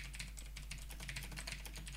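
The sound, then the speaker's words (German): Someone types a short message on a computer keyboard: many rapid, light key clicks in an uneven flurry over a low steady hum. “Warte mal, ich, schreib, ja. ich muss dem Tobi mal ganz kurz schreiben.”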